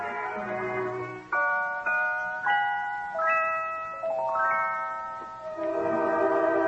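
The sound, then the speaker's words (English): Celeste played by a drummer: a bright, bell-like run of many single notes, each striking cleanly and ringing down before the next, heard alone. “There was a time when all the drummer did was play drums and traps. Today is a very busy man. He plays celeste,”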